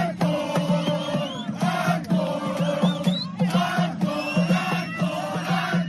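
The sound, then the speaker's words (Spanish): Crowd noise from a botellón, people drinking together outdoors on a Friday: dense overlapping voices and loud shouts with bursts of louder chatter, continuous throughout. “Aunque lo más probable es que el sonido de botellones como este, en cuestión de días o semanas, dé paso a otro sonido más parecido a este.”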